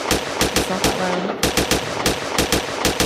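Rapid gunfire from a video game weapon, many sharp shots in a fast, even rhythm, loud and continuous with only a brief lull near the middle.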